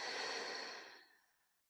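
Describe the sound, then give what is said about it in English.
A dog's sigh: one long, soft, breathy exhale that starts fairly full and tapers away to nothing over about a second and a half, heard alone. “My dog just sighed at the same time.”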